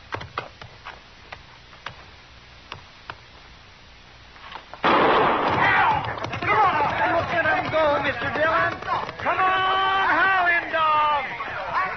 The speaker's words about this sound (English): All right, move up on the line. Now, I'll fire one shot.